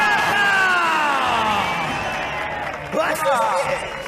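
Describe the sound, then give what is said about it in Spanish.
A crowd of red team supporters at a festive welcome cheering and shouting, many voices whooping loudly together, easing slightly before a fresh burst of shouts near the end. “Hacen más ruido las del rojo que las del blanco. ¡Hay ganas, sí, señor!”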